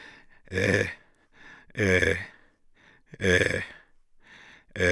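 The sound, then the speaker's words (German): An old man groans and moans hoarsely and inarticulately: a few loud, drawn-out voiced moans with softer strained sounds between them, rising and fading in uneven bursts. “hört man Gottvater unartikuliert rau stöhnen und jammern”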